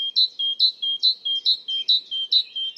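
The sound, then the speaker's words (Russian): A great tit sings its song, a clear, high two-note phrase repeated over and over in a brisk, even rhythm. Each phrase is a bright upper note followed by a slightly lower one, loud and alone against silence. “если Большая Синица поет так: «Та-тан, та-тан, та-тан,”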